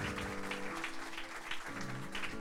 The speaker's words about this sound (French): Est-ce qu'on peut acclamer le Seigneur pour ça, s'il vous plaît